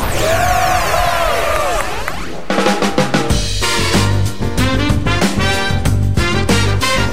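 Cheering and applause erupt from the winning school's students at the end of a school quiz programme: a loud, sustained crowd roar mixed with clapping that carries on for several seconds.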